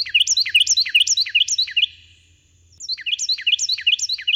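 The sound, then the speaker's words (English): Carolina wrens sing shrill, rapid repeated phrases of bright whistled chirps, a loud rolling string that pauses briefly midway before the same ringing pattern resumes. “those shrill Carolina wrens singing their hearts out”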